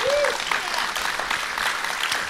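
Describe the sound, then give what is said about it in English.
Audience applause at a film festival fundraiser screening: a dense, steady patter of many clapping hands that holds at an even, fairly loud level from start to finish without breaks. “I was afraid they weren't going to applaud. They were thinking about it.”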